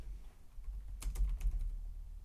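Typing on a computer keyboard: a short, faint run of several crisp key clicks in quick succession over a low background hum.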